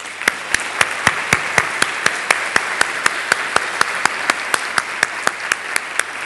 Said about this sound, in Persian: من 2500 راه نساختن لامپ رو یاد گرفتم براش دست بزنید